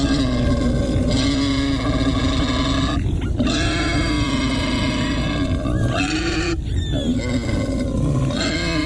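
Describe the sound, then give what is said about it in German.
A wild boar grunts loudly and almost without pause, with rough, snorting, guttural rumbles carrying rasping overtones, broken by a few short gaps. “Also zusammenzucken, erstarren, das ist ein Wildschwein.”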